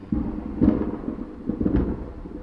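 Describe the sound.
Thunder from lightning rumbles in two low, broad swells, the first near the start and the second about a second later, each rolling and fading without any talk over it.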